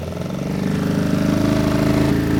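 A small motor boat's engine throttles up: a steady, rumbling, buzzing drone that grows slightly louder early on and then holds a strong, even level to the end.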